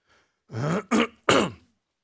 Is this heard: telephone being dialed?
no

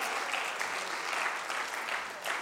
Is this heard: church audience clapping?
yes

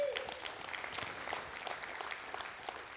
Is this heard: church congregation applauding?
yes

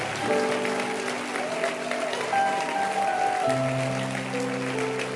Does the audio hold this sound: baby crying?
no

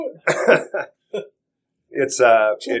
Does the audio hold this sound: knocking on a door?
no

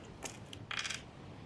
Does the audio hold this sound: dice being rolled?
yes

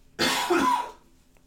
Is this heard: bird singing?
no

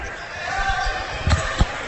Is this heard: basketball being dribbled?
yes

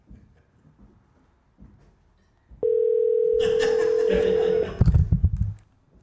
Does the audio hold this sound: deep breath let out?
no

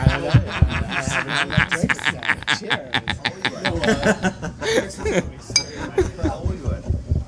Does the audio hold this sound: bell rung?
no

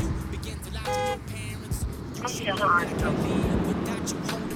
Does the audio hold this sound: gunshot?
no

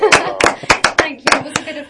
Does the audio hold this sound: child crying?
no

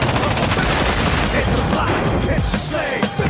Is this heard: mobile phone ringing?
no

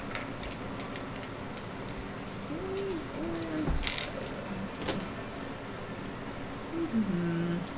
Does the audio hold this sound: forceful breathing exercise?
no

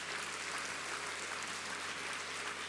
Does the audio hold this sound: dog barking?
no

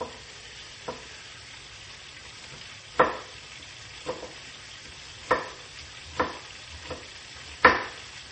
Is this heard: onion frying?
yes

